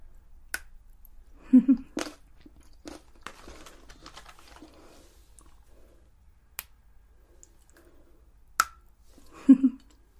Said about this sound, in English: like more of a dark chocolate, less milky. I think that snap sounds really good as well